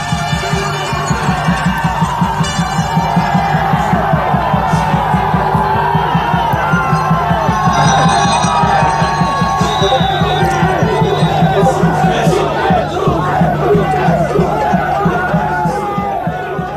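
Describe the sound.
Loud crowd cheering and shouting for an American runner at the UTMB trail race in Chamonix, with a sustained roar of many voices and a steady pulsing beat running beneath it throughout.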